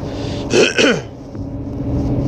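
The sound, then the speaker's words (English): A person clears their throat in two short, rasping bursts close together, alone, with quiet room tone before and after. “Excuse me.”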